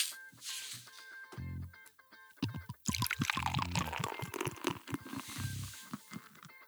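A second bottle of stout beer is poured, liquid gurgling and splashing in a sustained stream that swells, then dribbles and patters as the flow trails off.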